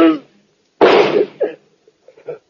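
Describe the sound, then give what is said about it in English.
A gunshot in a radio drama rings out as a single sharp, loud bang with a brief rough tail. A voice is heard just before it, and short vocal sounds follow. “Oh, now put away that gun. Not till I do this.”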